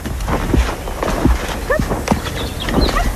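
Hoofbeats of a horse walking in a riding arena at a small riding centre: a few dull, low thuds in a slow, uneven rhythm, with faint high chirps above.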